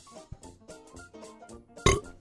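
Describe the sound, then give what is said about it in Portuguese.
A person burps once, short and loud, near the end, after a stretch of quieter sounds. “Pera aí que eu vou arrotar de novo. Deixa eu desligar o microfone.”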